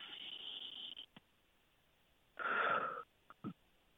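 A deep breath is drawn in through the nose as a long, airy, hissing inhale, followed after a pause by another strong breath and a couple of short sniffs. No one speaks.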